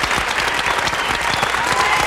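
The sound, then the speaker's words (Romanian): Studio audience applause at a Romanian television entertainment show: dense, continuous clapping that stays loud and even from start to finish. “Aplauze, vă rog, aplauze!”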